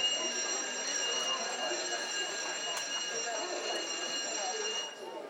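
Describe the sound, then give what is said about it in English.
A fire alarm going off with a steady, high-pitched electronic tone that holds unchanged for about five seconds, with voices faintly heard beneath it. “Attention, attention. The fire alarm has been activated.”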